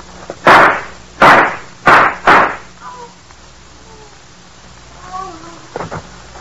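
Gunshots ring out as four loud, sharp cracks in quick succession, each with a short decaying tail. Much fainter scattered sounds follow after them.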